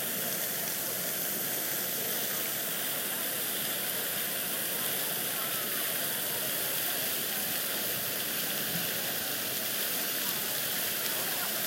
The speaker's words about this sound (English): What a nice soothing noise. A fountain.